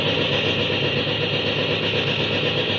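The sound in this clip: An airplane engine sound effect from a radio drama roars with the throttle wide open, a loud, steady, unbroken drone with a buzzing, vibrating tone and no voices over it.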